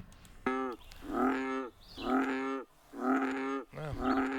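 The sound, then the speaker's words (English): A bullfrog croaks in several drawn-out, moaning calls, each deep and buzzy with rich harmonics. The calls repeat in a steady rhythm with short gaps between them, and no voices are heard. “It is a bullfrog. It is a bullfrog. Play that one more time.”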